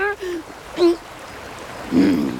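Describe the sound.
A flowing stream with a strong current gives a steady, diffuse rush of water under a few short voiced sounds.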